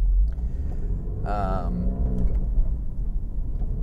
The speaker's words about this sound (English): So I'm doing a bit of a road trip here today in the Dorian Gray, the 911, because I can and I want to. So we're out driving the 911 today.